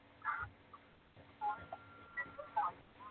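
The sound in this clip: Faint telephone keypad tones from pressing one, a few short electronic beeps spaced irregularly over a quiet, thin phone line.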